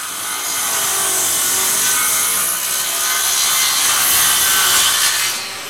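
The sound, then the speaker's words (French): A circular saw cuts through wood on a construction site, giving a continuous, loud, rough whine that holds steady for about five seconds before fading at the end. “Ce que vous entendez là, c'est le bruit d'une scie circulaire”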